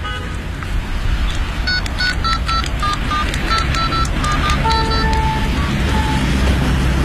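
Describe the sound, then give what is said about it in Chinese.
A telephone being dialed: a quick series of short electronic keypad beeps, many tones in a row, over steady background noise. “这样，你给小军打个电话问问他那里的情况。”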